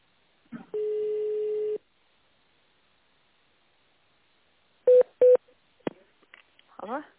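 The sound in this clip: Telephone keypad tones on a company's automated phone menu: first a long steady beep, then a quiet pause, then two short key presses in quick succession, followed by a brief voice.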